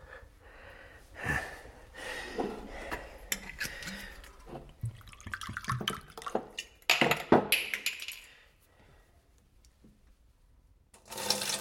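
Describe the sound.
Water pours into a glass at night in a home, an uneven, trickling splash with a few louder surges in the middle, then a quiet stretch and a brief final burst.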